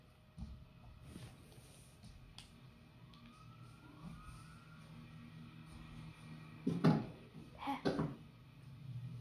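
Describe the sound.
Police siren in a video game, its faint wailing tones sliding up and down over a low background hum, followed near the end by two short, louder bursts of noise.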